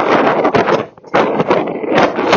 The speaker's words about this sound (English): I've decided it's a bit too windy, so I'm just making my way back home